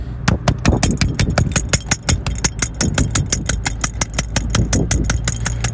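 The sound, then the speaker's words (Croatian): Rapid, even tapping on one's own body as a fast lymph-drainage technique: many sharp, regular taps in a quick steady rhythm over a constant low hum, with no talk. “130 otkucaja po minuti bi treba biti vaš tapping na sebi, na svom tijelu. Kako to zvuči je...”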